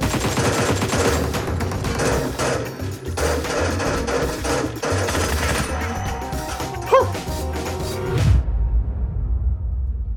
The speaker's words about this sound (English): Who's shooting? I can't get more than one kill in a row.